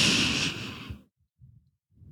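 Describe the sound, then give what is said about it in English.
A long, deep breath drawn in, a breathy rush of air lasting about a second that fades out, followed by near silence with a couple of faint low sounds. “Okay, breathe in, take a long, deep, big breath.”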